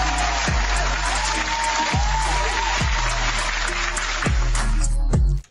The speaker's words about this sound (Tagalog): No, palakpakan naman natin yan.